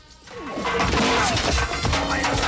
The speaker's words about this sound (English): sticks a stilt into a cylindrical waste bin and hurls it at the guy. It hits the guy in the face and decks him.